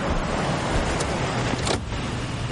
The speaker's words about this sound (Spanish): sicarios observan una camioneta acercándose. Bajen las armas. El joven las esconde. Su compañero se acerca al vehículo. La conductora para.